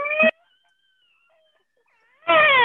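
A baby cries, unhappy despite a dummy: two loud, high, harmonic wails separated by about two seconds of near silence.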